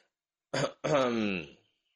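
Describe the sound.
A figure in blue robes clears their throat before making an announcement: a short rough burst followed by a longer voiced, humming rasp, heard alone against silence.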